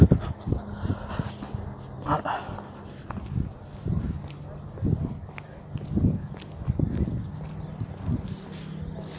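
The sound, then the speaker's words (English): Footsteps of a man and a woman walking fast, a long run of quick, soft steps on the ground, with talk in the background. “Yeah, it's a guy and a girl walking behind me, and they're like kind of like walking kind of fast. I guess that's their workout.”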